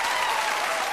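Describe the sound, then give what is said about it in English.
Studio audience applause recorded for The Oprah Winfrey Show: dense, steady clapping that stays even throughout the brief moment. “And these sounds you're hearing are the actual Oprah audience recordings.”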